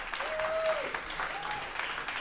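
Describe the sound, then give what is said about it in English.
Audience applause as a contestant comes up on stage at a game show: dense, continuous clapping throughout, with a voice rising briefly over it. “Nice round of applause for her as she comes up.”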